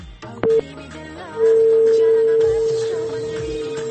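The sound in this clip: Telephone tone after a caller's line was cut off: a short beep, then a long, steady, unchanging tone that holds to the end over faint background noise.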